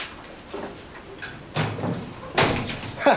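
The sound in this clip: A door being unlocked and opened: a few faint clunks and thuds with a low rumble, separated by short quiet gaps.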